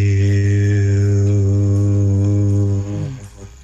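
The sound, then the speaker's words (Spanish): A low voice chants the spiritual word Hu as a single long, steady tone held for about three seconds before it fades. “Se llama el canto de Hue. La palabra Hue se escribe H-U, se pronuncia J-I-U, suena así. Hue.”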